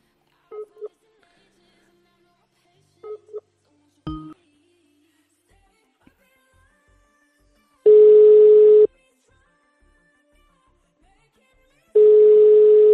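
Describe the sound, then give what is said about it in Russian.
A telephone number is dialed on a keypad: a few short, clipped beeps in small clusters, then two long, steady tones of about a second each, separated by silence. “Так, еще набираю еще на один номер.”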